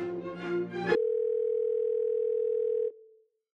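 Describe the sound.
Telephone dial tone: one steady, unbroken pitch that holds for about two seconds, then cuts off and fades quickly. A short burst of other sound comes before it. No dialing is evident.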